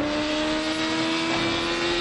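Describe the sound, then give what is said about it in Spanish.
A car engine drones at high, steady revs as it drives fast through curves on a mountain road, with a sustained whine and no pauses. “Toman una curva tumbados. Circulan por una carretera de montaña.”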